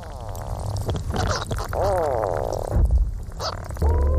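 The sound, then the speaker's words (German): Bubbling and chirping sounds from ice: continuous gurgling bubbles mixed with warbling, sweeping chirps and a low rumbling undertone, with no voices. “ein Blubbern, so eine Art Zirpen. Manchmal auch so ein Krachen, wenn weiter weg etwas abbricht vom Eis, weil Eis leitet sehr, sehr gut.”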